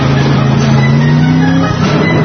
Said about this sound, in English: This isn't a Honda. There's 500 horses underneath this baby, okay? And the clutch. Oh! The five-speed stick.